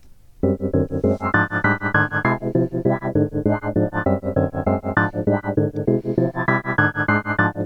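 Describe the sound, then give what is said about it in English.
A self-composed electronic waltz plays from a recording. Sustained, organ-like synthesizer chords pulse in a steady repeating rhythm, moderately loud and alone with no voices. “And basically, I wrote a waltz. And, well, it sounds like this.”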